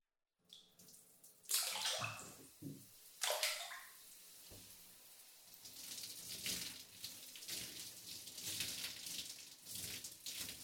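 Water splashing and running in a bath while someone washes their body: a few sharp splashes early on, then steady running and trickling water through the rest.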